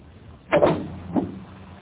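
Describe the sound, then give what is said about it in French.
A car hood is opened at a garage, giving two short mechanical clunks, the first louder than the second, with near silence around them. “Ouvrez votre capot.”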